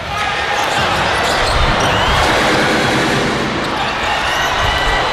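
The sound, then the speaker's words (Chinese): A basketball is dribbled during the closing minutes of a professional Chinese league game between Guangsha and Shenzhen. The bounces are buried under a loud, constant roar of the arena crowd. “布朗运球， 这边也是提前夹击。”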